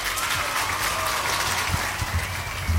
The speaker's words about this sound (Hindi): आपके लिए भी तालियां और जिन्होंने सही जवाब दिया उनके लिए भी तालियां